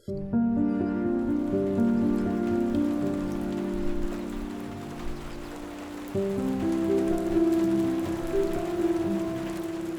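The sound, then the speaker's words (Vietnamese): Steady drizzling rain patters evenly throughout, a soft continuous hiss of drops beneath sustained low tones that shift once partway through. “Trời cứ mưa rả rích suốt hai ngày nay, khiến cho bầu không khí trở nên vô cùng ảm đạm.”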